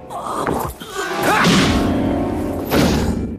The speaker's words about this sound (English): Chucky whacks him with the bat.